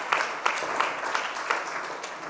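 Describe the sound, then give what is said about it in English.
Moderate audience applause for a child invited up to tell a Bible story: a soft, continuous wash of clapping with a few sharper claps standing out at fairly regular intervals. “Give Titus a big round of applause.”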